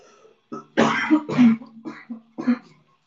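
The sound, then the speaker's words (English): A person clears their throat in a series of a few rough, guttural bursts mixed with small coughs, moderately quiet and uneven in rhythm, with no talk over them. “Give me a second, I'm just gonna clear my throat and I'll be back.”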